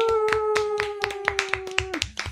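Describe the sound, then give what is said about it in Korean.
Steady rhythmic hand clapping on a stage show, about nine evenly spaced claps, over a held vocal note that drops in pitch near the end before a few more claps. “박수 치면서 하나 둘 셋.”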